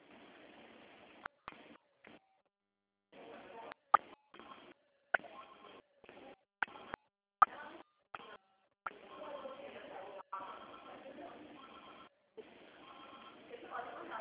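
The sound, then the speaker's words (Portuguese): Telephone keypad tones as a caller types a CPF number into an automated phone line: a run of short, faint beeps and clicks in irregular clusters, separated by brief silent gaps. “Digite, por favor, o número do seu CPF.”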